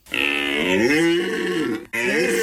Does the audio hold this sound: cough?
no